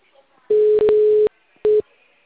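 A telephone busy signal: a steady mid-pitched tone sounds in a long loud burst and then a shorter one, with silence between.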